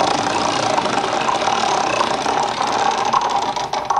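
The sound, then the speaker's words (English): Mechanical whirring of game wheels being spun during a bonus round of a children's educational TV game, a loud, steady, continuous whir that thins slightly near the end. “Spin those wheels.”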